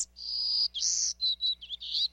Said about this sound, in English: A golden-cheeked warbler, to be exact. He's smaller than a sparrow, with a white belly, yellow face, and black throat.